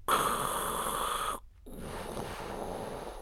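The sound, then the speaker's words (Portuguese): A person imitates wheezy, heavy breathing through a single open nostril of a narrow, congested nose. A long, high, whistling wheeze is followed by a brief silence and then a softer, rushing breath. “Só tenho uma narina, entro com uma narina e já não estou a respirar. Fico a respirar tipo. Tipo Darth Vader.”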